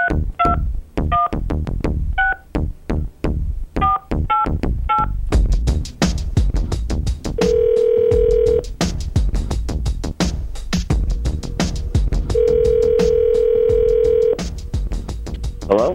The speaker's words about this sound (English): Dialing at random.